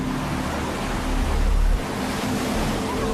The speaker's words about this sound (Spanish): That wave is a good 15, 20 feet tall. Easy.